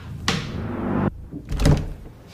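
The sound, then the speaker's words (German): A heavy security door swings open at a state police operations centre in Düsseldorf, with a loud, broad rushing scrape lasting about a second. A pause follows, then a deep, heavy thunk, with no voices. “öffnet sie eine schwere Sicherheitstür und ist angekommen.”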